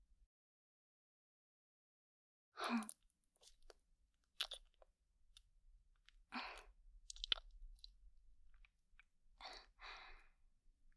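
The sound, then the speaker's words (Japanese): Hard candy is crunched in the mouth in a few sharp, crackling bites, separated by pauses and softer mouth noises. It is quiet and without talk. “飴を舐めるとリラックスしてしまうもので。”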